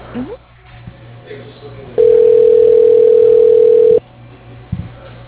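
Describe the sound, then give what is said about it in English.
Telephone tone heard as an office call is transferred to an assistant's line: one steady, loud, even electronic tone lasting about two seconds, set between stretches of faint line noise and small scattered sounds. “Let me go ahead and put you through to his assistant. Hold on one moment.”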